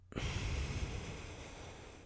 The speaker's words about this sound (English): Deep breath in. Deep breath out.